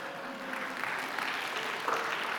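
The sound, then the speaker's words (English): Audience applause, a soft, steady patter of many hands clapping together, fairly faint and continuous for the whole stretch, with no voices heard. “Beth does deserve applause. She's made it this far.”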